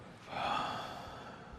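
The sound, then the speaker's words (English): A single slow exhale out through the mouth during a guided breathing exercise, a soft, airy rush of breath that swells and then gently tapers away. “Take a deep breath in. Excellent. Hold for 4. Now exhale out through your mouth.”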